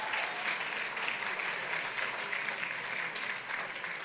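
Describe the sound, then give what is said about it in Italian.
Congregation applause at a church service, given for Jesus: a fairly soft but sustained wash of many hands clapping, even and continuous throughout. “Puoi fare un applauso a Gesù. We can do better,”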